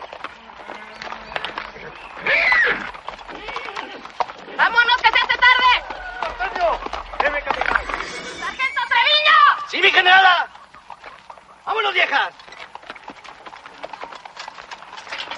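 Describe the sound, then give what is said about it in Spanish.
Clip-clopping hooves as revolutionaries mount horses and ride off, a brisk, uneven clatter of several hooves running beneath voices and talk that swell and fade in bursts. “Suben todos a caballo.”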